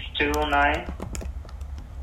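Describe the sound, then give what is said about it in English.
Quick clicks of keys pressed on a keyboard, several light taps in an uneven run after a brief voice at the start. “I like how many keys you're pressing.”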